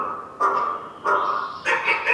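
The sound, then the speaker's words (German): Harsh, croaking calls from an AI-controlled raven: three loud caws spaced evenly apart, each rough and buzzy, heard alone without other voices. “Hier spricht ein Rabe, der allerdings von künstlicher Intelligenz gesteuert wird.”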